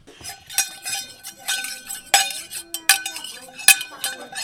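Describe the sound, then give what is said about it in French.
A spoon clinks against a saucepan, giving several sharp metallic clanks at an irregular pace, each with a short ringing tail, between softer scraping taps. “C'était la cuillère dans la casserole.”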